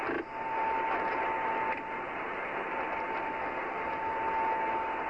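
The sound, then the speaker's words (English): Radio signal noise is relayed from a tracking aircraft during a spacecraft's atmospheric entry. A continuous band of hissing static holds a thin, steady tone through it, with faint clicks and little change in level. “Now, that noise you hear is from the signal from the Araya aircraft.”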